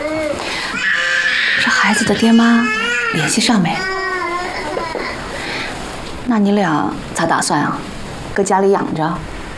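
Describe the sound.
An infant cries loudly while being cared for, in wailing bursts with a wavering, rising and falling pitch that break off into short gaps and resume several times.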